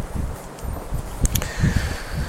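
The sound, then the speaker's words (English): Wind blows across the microphone in gusty, low rumbling bursts, mixed with soft rustling and a few brief sharp crackles, all fairly faint and uneven. “The wind is blowing. Could cause a problem.”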